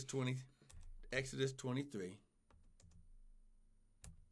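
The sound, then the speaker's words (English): A person talks, then faint, scattered clicks of typing on a computer keyboard follow, sparse and quiet. “Let me type it over here. You don't want me to type it? No. I got it, babe. You just go ahead and you just the broadcast will be over and I'll still be trying to type.”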